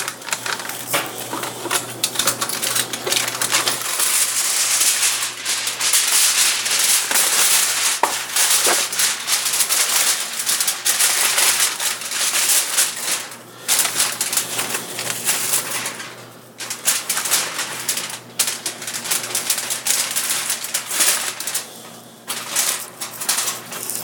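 Crinkling and rustling of a sheet of aluminium foil handled to wrap corn, a continuous, fairly loud crackle of many sharp crumpling bursts with a few brief lulls, no voices.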